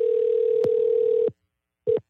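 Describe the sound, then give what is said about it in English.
A telephone line tone sounds as a call is placed to a contest winner: a steady mid-pitched tone held for over a second with a couple of clicks, then silence and one short beep. “Let's see if we can get Cody on the phone today.”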